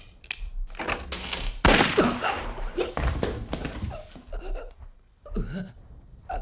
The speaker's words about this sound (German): Oh mein Gott! Verdammte Scheiße! Dieses verdammte Miststück hat auf Hernandez geschossen.